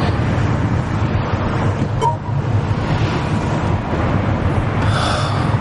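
Steady road and engine drone heard from inside a car being driven, a continuous, even low hum with no breaks.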